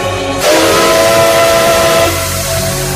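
A steam train whistle sounds one loud, sustained, steady blast lasting nearly two seconds over continuous hissing steam, which carries on after the whistle stops.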